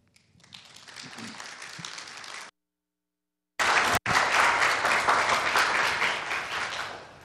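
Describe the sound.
An audience applauds to welcome a speaker, a dense, sustained wash of clapping broken by a brief silent gap before it resumes and slowly tapers.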